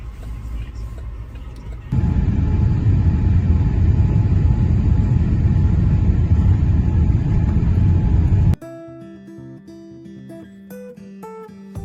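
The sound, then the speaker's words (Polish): Airport ambience with aircraft: a heavy, steady low rumble holds loud for several seconds, then cuts off abruptly and gives way to music. “I jesteśmy na lotnisku.”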